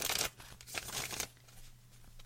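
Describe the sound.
Way Home Tarot cards are shuffled, with a few quick, soft papery riffles and slides in the first second, then faint rustling. The sound is quiet overall, with no voices.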